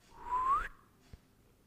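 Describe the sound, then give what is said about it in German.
A person whistles a single short, soft note that slides upward in pitch while sitting upright during a breathing and posture exercise, followed by a faint click in the quiet afterward. “Bleib schön so sitzen und jetzt pfeif mal.”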